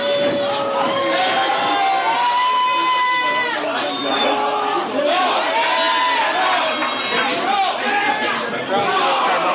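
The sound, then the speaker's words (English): Crowd at a live wrestling event cheering and shouting: a loud, continuous roar of many voices with individual yells rising out of it, while men talk over the noise. “Calm the crowd down here. I don't think it's working.”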